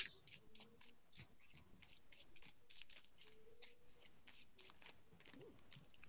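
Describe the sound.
Tarot cards are shuffled by hand before a reading, giving a quiet run of many soft flicking and rustling bursts in an uneven rhythm.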